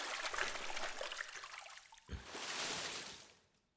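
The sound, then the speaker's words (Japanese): Warm water pours over hair during a hair wash while the person wears a yukata, a steady broad trickling hiss with no voices. It breaks briefly near the middle, then resumes strongly and fades away at the end. “ほら、髪を前に下げてごらん。お湯で濡らすから。”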